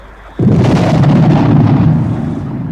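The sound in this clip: An artillery gun fires an armour-piercing shell in a radio drama: one sudden loud boom followed by a sustained heavy roar that eases slightly toward the end.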